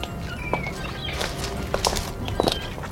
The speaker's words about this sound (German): Plötzlich näherten sich Schritte.